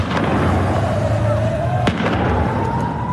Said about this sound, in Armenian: Այս տեսագրության մեջ տեսնում ենք, թե ինչպես են բնակելի շենքերից մեկի կտուրին դիրքավորված իրանցի ուժայինները կրակ բացում բողոքի ցույցի մասնակիցների ուղությամբ։